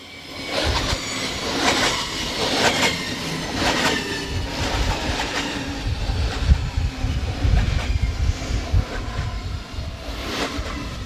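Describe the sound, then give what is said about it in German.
An S-Bahn commuter train passes beside a city footbridge construction site, with a continuous heavy rumble, rhythmic clattering wheels and a faint squeal, growing somewhat louder toward the end. “Jetzt kommt gerade die S-Bahn.”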